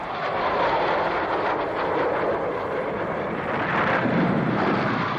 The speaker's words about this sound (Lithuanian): Lėktuvai? Ir tiek daug, kas tai?